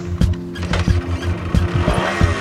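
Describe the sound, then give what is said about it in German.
A Sachs moped engine runs with a steady low droning hum and an uneven, rhythmic putter throughout. “Wie fast jeden Abend gehe ich jetzt mit dem Töff zum Restaurant auf Öhlikö zu Nacht essen.”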